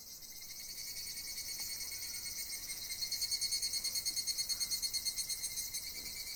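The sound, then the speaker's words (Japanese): Higurashi cicada calling in a high-pitched, shimmering chorus that turns into a clear rhythmic pulsing and grows louder in the second half. “じゃあ最後に日暮らし”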